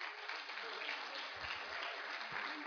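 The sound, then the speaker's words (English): A church gathering claps for a woman leader who has come to preach: continuous, muffled, evenly sustained clapping from many people with no clear gaps or peaks. “So, you know, we're honored. Give Louise a clap.”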